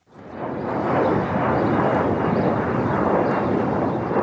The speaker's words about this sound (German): Dieses Geräusch ist jetzt Vergangenheit. Der Flughafen zieht aus, Berlin zieht ein.